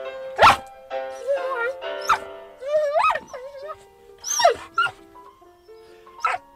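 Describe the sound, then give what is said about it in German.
A dog howls and whines along to piano music from three pianos playing together, its wavering cries rising and falling in pitch over sustained piano notes, with sharp yelping bursts between. “Gleich setzen 3 Klaviere zusammen ein. Für mich ein wunderbarer Einsatz. Aber für meinen Hund.”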